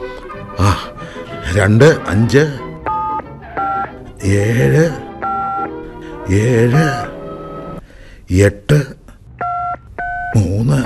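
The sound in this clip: A telephone number is dialled on a touch-tone keypad, with a few short, clear beeps in small groups between stretches of a person talking.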